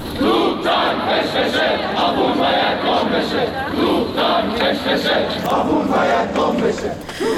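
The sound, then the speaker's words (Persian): Students chant slogans at a protest at Amirkabir Polytechnic University after Iran admitted a Ukrainian airliner was downed by a missile, a loud, dense crowd chant pulsing steadily throughout. “اما یک فیلم دیگه هم انتشار یافته از دانشجویان دانشگاه امیرکبیر پلی‌تکنیک، هانا به اونها اشاره کردی، صدای شعارش رو با هم میشنویم.”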